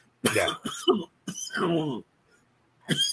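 Coughing and throat clearing from a man, arriving as a few harsh, rough bursts separated by short gaps, with a final burst cut off at the end.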